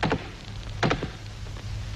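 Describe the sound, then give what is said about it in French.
Three faint, hollow wooden knocks are struck on the rostrum to open the United Nations conference, the ritual curtain-raising blows. One lands first, then after a pause two more follow close together. “M. Stettinius va ouvrir les débats, et il le fait en frappant sur la tribune les trois coups rituels du lever de rideau.”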